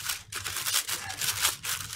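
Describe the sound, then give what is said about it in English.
Papers being shuffled and handled, a run of soft, crisp rustles and swishes in quick uneven bursts, fairly quiet and without voices. “shuffling papers here.”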